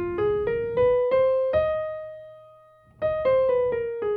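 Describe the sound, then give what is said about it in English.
An F minor blues scale played on a bright, harmonic-rich instrument: six separate notes climb step by step to a held top note, then after a short pause the notes step back down in the same even rhythm. “Okay, so next I want to introduce the F minor blues scale.”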